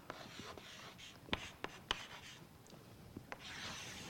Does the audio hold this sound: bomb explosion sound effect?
no